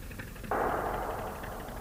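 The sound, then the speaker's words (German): A single sharp gunshot bursts out after a short quiet stretch, then a loud rumbling tail fades slowly. “Was ist das? Auf wen schießen Sie?”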